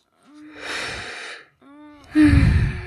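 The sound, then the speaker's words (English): A person breathes heavily, taking three audible breaths with a rasping, partly voiced gasp-like tone. The first two are moderate, and the last is the loudest and harshest. “I think you just could hear me breathe and get bored.”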